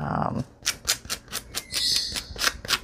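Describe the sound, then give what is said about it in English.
Brisk, scratchy rasps of a sanding block or sponge smoothing a small rough edge on a handmade playing-card journal. After a brief voice, many quick strokes follow one another in an uneven rhythm. “And I am just going to sand that little extra piece off.”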